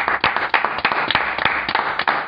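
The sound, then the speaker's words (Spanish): Clapping as applause is called for: a quick run of many sharp, loud claps at a fairly steady rhythm, heard alone without voices. “Un aplauso.”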